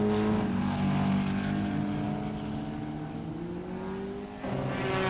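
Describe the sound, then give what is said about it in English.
Formula One racing cars, including Maserati and Vanwall entries, roar through a curve in a Grand Prix, giving a loud sustained engine drone whose pitch glides slowly upward, then a fresh surge of engine noise near the end. “And through the South Curve, Hunted and Hunter rip away into their 20th lap.”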